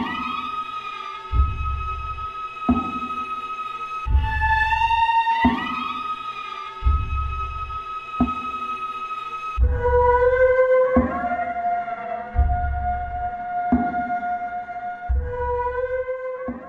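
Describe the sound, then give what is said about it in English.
Eerie film score from Under the Skin: low, muffled throbs recur at a slow, regular pulse beneath thin, sustained high drones that slide and shift pitch, cold and hovering throughout. “Yeah, so that was Under the Skin. You can hear the music kind of playing in the background.”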